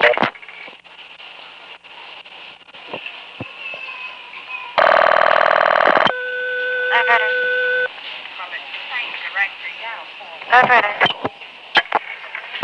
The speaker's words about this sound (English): So, here's dialing first 0 normally, and note the class of service tone.